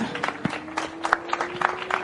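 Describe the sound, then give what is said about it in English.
Scattered applause from a crowd at a motorsport podium ceremony honouring a junior race winner: sparse, uneven hand claps with a steady tone running underneath. “And for our junior winner out here today, another round of applause for Maxime Direkš.”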